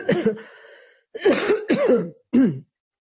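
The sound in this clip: Throat clearing by a lecturer: a few rasping, voiced grunts in short bursts separated by brief pauses, fairly loud against silence.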